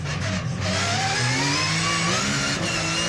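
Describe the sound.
A car engine accelerates hard at high speed, a loud, continuous roar whose engine tones climb steadily in pitch throughout, with no talk over it.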